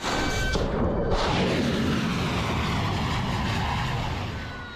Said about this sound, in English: Well, that was the sound of footage from US Central Command, which said it launched 5 hours of strikes overnight aimed at weakening Iran's ability to attack commercial shipping.